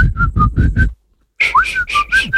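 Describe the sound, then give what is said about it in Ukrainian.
A person whistles a short tune: five clear, bright notes, a brief silence, then a second run of several notes that includes a quick upward slide. “Сьогодні на шапці ми будемо свистіти. От, наприклад, будемо свистіти ось так.”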